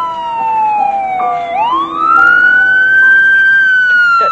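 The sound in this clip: A police emergency siren wails loudly: its single tone slides down, then sweeps back up and holds high, steady and alone.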